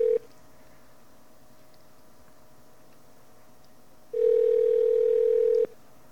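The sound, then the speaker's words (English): A steady telephone dial tone on an AT&T line: a brief burst of the flat, unbroken tone at the start, a long quiet stretch with faint low hum, then the same tone returns loud for about a second and a half. “To place a call, please dial the number.”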